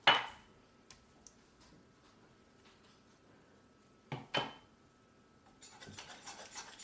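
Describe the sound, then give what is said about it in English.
Scraping and rubbing as a jam pot is cleaned out with yogurt: a few brief scrapes separated by quiet gaps, a couple of faint clicks, then a steadier stretch of continuous rubbing toward the end. “I will put this yogurt in and clean up the pot.”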